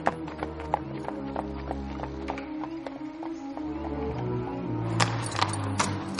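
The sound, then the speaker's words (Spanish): Horse hooves clip-clop as a rider travels through a forest at dusk, a steady run of many sharp, light hoofbeats with low sustained tones beneath them. The hoofbeats grow somewhat louder and busier toward the end. “Al atardecer, la duquesa cabalga por el bosque hacia el pabellón de caza de Leopold.”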